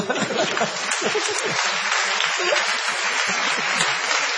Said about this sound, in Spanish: Ustedes aplauden y están contentos porque no se cruzaron.